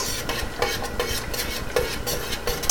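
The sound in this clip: A warm, frothy mixture is stirred with no clumps, giving a continuous swishing and scraping with regular louder strokes recurring at a steady pace. It is fairly soft, with no voices.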